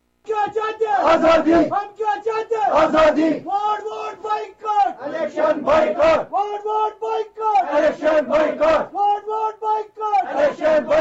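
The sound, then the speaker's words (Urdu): A crowd chants slogans outside polling stations on election day, many voices shouting in unison. Loud, rhythmic phrases repeat in bursts with short pauses between them. “لیکن آج اس محلے کے سنسان polling مراکز کے باہر لوگوں نے نعرے بازی کی۔”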